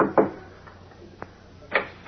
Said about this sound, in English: Assuming his guise of Clark Kent, he knocks at the door of the ground floor apartment.